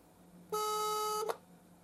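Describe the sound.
A single steady ringback tone from a phone call being placed, a bright harmonic electronic note held for under a second before it cuts off, with near silence on either side.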